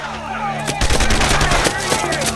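A gunfire sound effect of several men firing during a jungle war battle: a dense run of sharp shots begins after a short pause and continues steadily over a low droning background.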